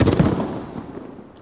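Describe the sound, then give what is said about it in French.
A fireworks explosion in the sky: a heavy booming burst at the start that trails off into a long, fading rumble. “Je regarde le feu d'artifice et ses éclats colorés qui disparaissent dans l'immensité du ciel.”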